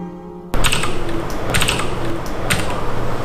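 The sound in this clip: Typing on a computer keyboard by geophysical engineers processing seismic images: after a brief quiet start, a steady run of many quick keystroke clicks and clacks continues to the end.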